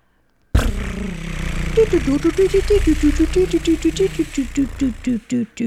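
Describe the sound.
A prize wheel spins with a run of sharp ticking clicks whose spacing widens as it slows toward the end, over a sustained melodic tone.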